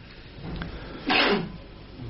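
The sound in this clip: A single sneeze bursts out sharply and lasts about half a second, breaking a quiet, muffled background.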